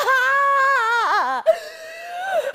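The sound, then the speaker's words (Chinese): A woman singer on stage cries in a high, wavering wail with trembling pitch, breaks off with a sharp catch of breath, then continues in a steadier drawn-out cry. “老婆控制一下，别哭啊。”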